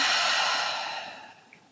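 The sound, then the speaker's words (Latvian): A single deep exhalation during guided meditation breathing, a soft, airy breath pushed out fully that gradually fades over nearly two seconds. “Dziļi ielpa. Izelpa viss gaisa ārā.”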